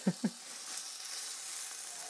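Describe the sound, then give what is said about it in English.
Pork sizzling in a frying pan, a faint, steady hiss preceded by two soft knocks in quick succession at the start. “Nice meaty smell coming off the pan now.”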